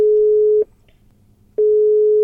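Telephone ringback tone of an outgoing call placed from a car stuck in a traffic jam: a steady, mid-pitched tone sounds, pauses for about a second, then resumes, forming two clear tone bursts.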